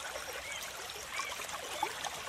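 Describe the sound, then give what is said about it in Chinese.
A babbling stream murmurs softly in a guided relaxation, its water trickling in a faint continuous wash dotted with small bubbling blips. “什么事都不用想，专心地听着潺潺的流水声，”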